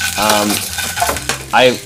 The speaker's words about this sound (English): I'm cooking, baby.